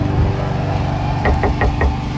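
Someone knocks on a door: four quick, evenly spaced raps over a steady low background hum.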